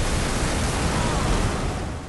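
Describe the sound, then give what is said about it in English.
A massive ocean wave crashes down, a loud, steady roar of churning water that holds for about two seconds and fades slightly at the end, with no voices. “she glances around and sees a massive wave crashing down in front of her. She submerges right before the water smashes her.”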